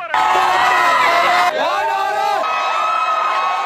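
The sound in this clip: A crowd cheers to welcome the NC State team home: a loud, continuous roar of many voices with high whoops and shouts. It dips briefly midway, then carries on just as dense.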